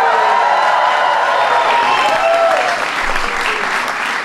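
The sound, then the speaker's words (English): Applause rises for the NBA champion Golden State Warriors at the White House, a loud, dense, sustained clapping that fills the whole span without a break. “Give it up for the NBA champion, Golden State Warriors.”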